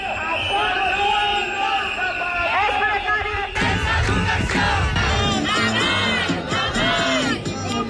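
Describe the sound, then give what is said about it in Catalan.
Teachers and professors protesting during a nationwide education strike fill the air with loud, dense shouting and chanting that runs without a break from start to finish. “Aquest és el so de les protestes de mestres i professors arreu del país.”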